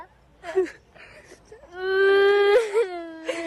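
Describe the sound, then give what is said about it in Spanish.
A baby crying: brief whimpers give way to a long, steady, high wail that breaks into choppy sobbing cries and then resumes, loud and tonal throughout. “no llores, bebé, no llores.”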